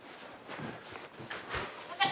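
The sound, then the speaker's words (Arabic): A goat bleats a few times, faint and wavering, with the last bleat the sharpest and loudest over a quiet background. “صوت معزة ها؟ معزة ما تخافش”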